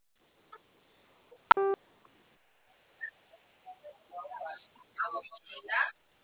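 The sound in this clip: A single short telephone keypad beep, zero pressed in an automated credit-offer phone call, then faint, broken talk that comes and goes.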